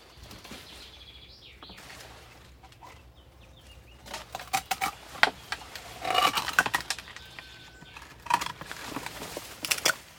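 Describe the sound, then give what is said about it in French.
Pruning shears cut hollow Japanese knotweed stems, making a dense run of sharp clicks and crackly rustling of stalks and leaves that builds in the second half after a quieter start. “Je vais chercher un sécateur pour couper un peu à polygonome.”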